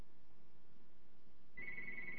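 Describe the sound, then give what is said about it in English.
Telephone ringer ringing: after a quiet, hissy stretch, a steady high-pitched electronic tone starts abruptly and holds to the end. “All right. Let's see who we've got on the phone. Forgot to turn the dadgum ringer off.”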